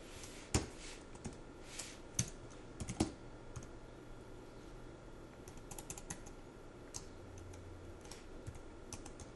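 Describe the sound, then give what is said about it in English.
Keystrokes sound from a computer keyboard: sparse, quiet, irregular typing with a few sharper, louder clicks scattered through a hushed background. “Let me type here for a second.”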